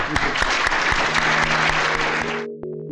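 Audience applause after a university public lecture: a dense, steady patter of many hands clapping for about two and a half seconds, then it cuts off into a brief sustained tone.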